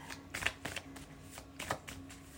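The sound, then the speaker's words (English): Gypsy fortune-telling cards being shuffled: several quick, papery riffling bursts with soft flicks between them, moderately quiet. “let's just throw in my gypsy cards. And see. So gypsy cards, bring to me everything that you can see”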